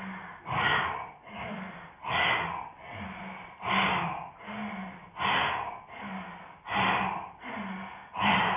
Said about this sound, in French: Voilà, vous allez expirer par la bouche. Le dos est complètement arrondi.